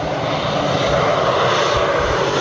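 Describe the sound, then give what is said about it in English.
Steady, loud drone of firefighting airplane engines working over wildfires in Canada's Northwest Territories near Yellowknife, a broad, even roar that holds without pause throughout. “airplanes dropping water to douse wildfires in Canada's Northwest Territories”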